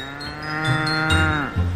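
A cow moos in one long, loud, drawn-out bellow, rich and nasal, heard alone.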